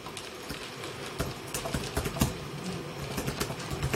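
Someone types a web address on a computer keyboard: rapid, irregular key clicks patter over a constant background hiss.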